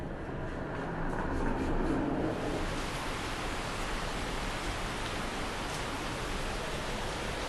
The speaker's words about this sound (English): That sound is rain. I'm about to walk through this rain to start my day here.